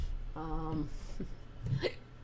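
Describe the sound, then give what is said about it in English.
A person hiccuping: a few short, abrupt bursts with a voiced catch, of moderate loudness and spaced irregularly, with no other sounds. “sorry about the hiccups. I hate them.”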